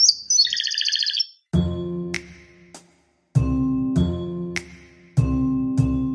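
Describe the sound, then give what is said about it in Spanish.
A canary chirps, opening with a rapid, high-pitched trill, then a few louder bursts of song separated by short pauses. “Lo que quiero es el canario.”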